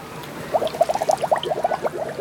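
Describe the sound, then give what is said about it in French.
Watery splash and gurgle as someone falls head first into water, heard as many quick bubbly blips in a rapid, uneven run that starts about a quarter of the way in and carries on to the end. “À l'arrivée, Toudou tombe la tête la première dans l'eau.”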